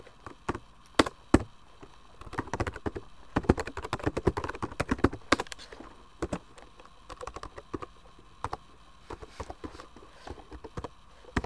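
Keystrokes on a computer keyboard click in irregular bursts while text is typed into a layout program, fairly quiet, with brief pauses between flurries of sharp taps and no talk.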